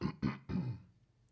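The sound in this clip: Throat clearing from someone with a frog in the throat: three rough, throaty bursts in quick succession, the last one longest, each fading before the next, then quiet.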